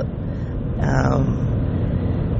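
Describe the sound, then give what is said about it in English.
Road noise inside a moving car: a loud, continuous low rumble with broad hiss, staying steady throughout. “Can you hear it? I am driving, so you should hear the road.”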